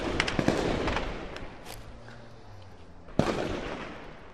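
Gunshots in street fighting in Aleppo: a cluster of sharp cracks at the start, then a quieter stretch, then one louder report followed by more scattered shots.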